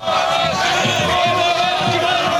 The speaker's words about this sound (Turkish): Türkiye'nin dört bir yanında olduğu gibi Kayseri'de de şampiyonluk coşkuyla kutlanıyor. Bizler şu anda Cumhuriyet Meydanı'ndayız